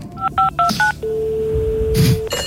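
A telephone number is dialed with four quick touch-tone beeps, then a long, steady, lower tone held for over a second before a brief noisy burst.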